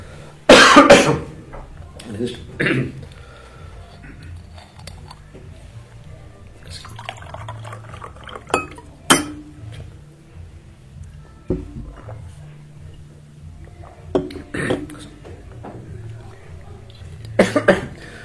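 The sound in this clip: A speaker at an evening public discussion coughs and clears their throat several times. The rough bursts are scattered between stretches of talk, with one strong cough near the start and a few more later on.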